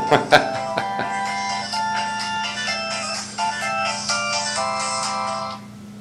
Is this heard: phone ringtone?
yes